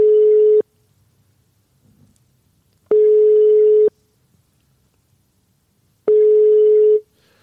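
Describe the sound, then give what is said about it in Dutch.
Telephone line tones while a call is placed: three long, steady mid-pitched beeps, each just under a second, separated by quiet gaps of about two seconds. “We gaan bellen met Bassie.”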